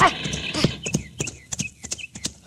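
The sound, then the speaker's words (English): Hooves of a stallion ridden in haste strike out many quick, sharp clops in an irregular galloping rhythm, crisp and fairly loud throughout. “You have ridden your great stallion, Aquila, until he is ready to draw.”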